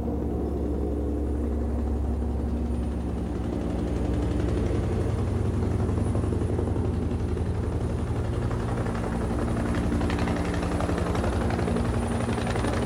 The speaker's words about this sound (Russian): На фоне холмистой местности летит вертолет.